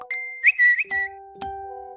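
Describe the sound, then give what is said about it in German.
Smartphone notification chimes: several bright electronic dings overlap in quick succession, each a clear ringing tone that decays, with no voices. “Aber dann kam der Samstag und bei Lucia und mir haben ziemlich zeitgleich die Handys angefangen, verrückt zu spielen.”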